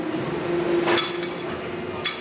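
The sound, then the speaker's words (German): Glassy clinking knocks from striking a plastic part reinforced with 30% short glass fibres. Two sharp strikes ring out, one near the middle and one near the end, over a faint steady tone. “hört man richtig den glasigen Sound, als würde ich ein Glas irgendwo anschlagen. Weil hier 30% von diesem Teil sind Glas. Zwar in kleinen Fasern und überall drin verteilt, aber man merkt es.”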